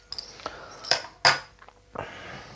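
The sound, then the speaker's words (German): Two spoons clink and scrape against a bowl while stirring potato salad made with potato slices and diced onion, giving a series of irregular metallic taps and scrapes, one noticeably louder, with no talking. “Dann brauche ich noch 2 Löffel, weil umrühren, ehrlich gesagt, mit den Händen muss jetzt nicht sein bei dem Salat.”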